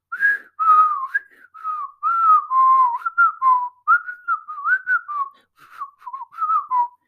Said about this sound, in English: so sorry about that. I can't even whistle right